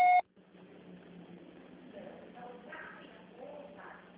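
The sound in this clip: A voicemail beep sounds right after the greeting: one short, loud electronic tone that cuts off abruptly, followed by faint, low talk.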